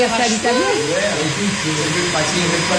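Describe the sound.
A small vacuum cleaner runs with a steady whirring drone while people talk over it in French.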